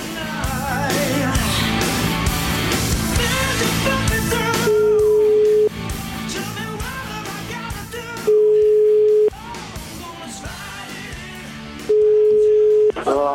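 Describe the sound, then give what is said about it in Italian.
Ringback tones of an outgoing telephone call: three long, steady mid-pitched tones, each lasting about a second and separated by pauses, with music and talk running underneath at first. “Io vorrei chiamarlo questo signore”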